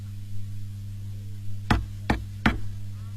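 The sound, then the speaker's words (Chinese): Three sharp knocks on the closed main gate of a stronghold, evenly spaced and fairly loud, over a steady low hum. “沙僧来到寨门口，见大门紧闭，忙上前敲门。”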